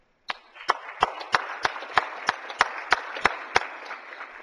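Applause in a state Senate chamber welcoming guests: a soft wash of scattered clapping with evenly paced, sharper claps standing out. It is fairly faint and steady throughout.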